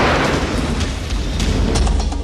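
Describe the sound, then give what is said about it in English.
A loud bomb explosion from a film trailer gives a sustained, heavy roar with a deep rumbling low end. It stays forceful for the whole short span, with no speech over it. “Genghis Khan conquered half of the world in his lifetime. I intend to finish the job. And when the adventure begins, activate the bomb.”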